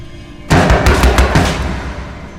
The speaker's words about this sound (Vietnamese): Có tiếng đập cửa